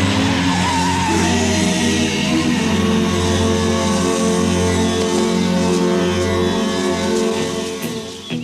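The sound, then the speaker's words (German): A car engine roars with squealing, skidding tyres as the car drives off, a loud, continuous mix of motor drone and tyre screech that carries through the whole stretch without pause. “Gut, starte dein Regenbogenauto.”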